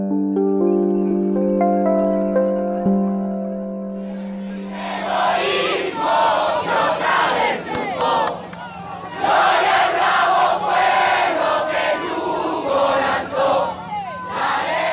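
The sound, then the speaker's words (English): A large Venezuelan crowd sings the national anthem alongside Juan Guaido at a show of support. A steady held tone opens, then a dense, loud mass of voices enters and carries through to the end. “That's the sound of Venezuelans singing the national anthem alongside Juan Guaido in just show of support.”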